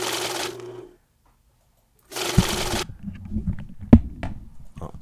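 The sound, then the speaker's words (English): A money counter machine riffles through banknotes in two rapid whirring bursts separated by a pause, followed by quieter clattering and handling sounds. “that's the money counter right there”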